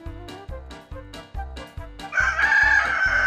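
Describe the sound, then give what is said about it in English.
A rooster crows in a long, bright, sustained call that enters partway through. It rises over a rhythmic musical backing of steady low pulses, about two per second. “Cock-a-doodle-doo. Cock-a-doodle-doo.”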